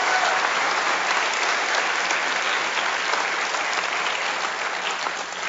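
Church audience applause for the pastoral staff, a dense, steady wash of many hands clapping that holds evenly from start to finish.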